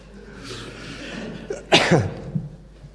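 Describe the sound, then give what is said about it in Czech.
A nose being blown: a long breathy hiss that builds, then a short, harsh, forceful burst, followed by a few fainter snuffling traces. “Tak mě to dojalo, že jsem si musel vyčistit chřípí.”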